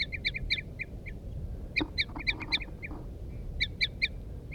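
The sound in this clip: A female and a male bird call back and forth with toot-like notes, the female's toots loud and the male's soft. The short, high calls come in quick clusters separated by pauses, over a steady low background rumble.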